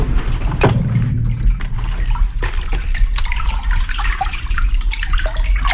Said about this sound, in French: Ça, c'est l'écoulement de l'eau dans le tube qui sert à irriguer les terres de Faja.